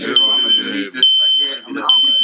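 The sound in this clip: A smoke alarm, set off by heavy weed smoke in the air, sounds loud, shrill high-pitched beeps that repeat about once a second while people talk over it.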